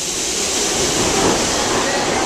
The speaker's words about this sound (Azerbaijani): Təkəmseyrək sərnişin olsa da qatar platformada çox dayanmır. Təxminən 2 dəqiqə sonra yerindən tərpənir.